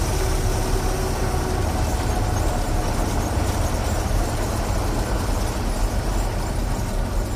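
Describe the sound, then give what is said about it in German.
Steady, loud car engine roar as the car races along much too fast, a continuous dense rumble with no pauses and no voices. “Hören Sie auf zu rasen, Sie fahren viel zu schnell.”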